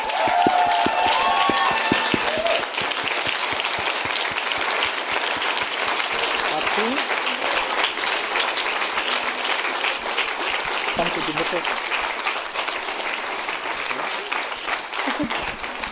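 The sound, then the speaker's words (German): A church audience applauds to welcome a visiting pastor to the front, with dense, steady clapping that stays loud and even for the whole stretch. “wir bitten ihn mit einem Applaus, Applaus hier nach vorne.”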